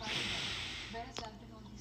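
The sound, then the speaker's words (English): One deep breath drawn in by a tired person: an airy, hissing inhale lasting about a second, fading as it goes, then a short sharp breathy snort. “Oh my God. Breathe in.”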